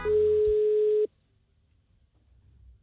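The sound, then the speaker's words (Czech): A telephone tone sounds as a call is placed: one steady, unbroken mid-low tone holds for about a second, then cuts off abruptly into near silence. “No a zavolal mu. Takže vlastně volal Václavu Havlovi.”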